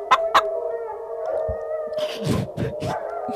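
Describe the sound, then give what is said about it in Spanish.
A dog howls in a long, wavering, tonal cry, with a few short, sharp yelping bursts breaking in near the start and again later. “¡Corre, corre, que viene el perro, rellenito!”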